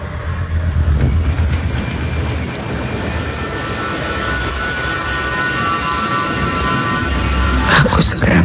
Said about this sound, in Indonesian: Tak lama aku menunggu, akhirnya angkot yang aku tunggu-tunggu datang juga.